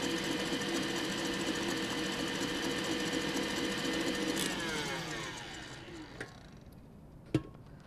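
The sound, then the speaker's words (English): An electric mixer whirs steadily as a mixture is beaten to soft peaks. The motor hum winds down with falling pitch near the end, followed by a couple of faint clicks. “You just want to make sure that you don't overbeat it, because then it's dry and it will deflate when you fold it in. We're looking for soft peaks to form.”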